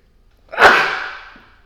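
A single loud sneeze bursts out sharply and trails off over about a second, heard alone with no talk around it.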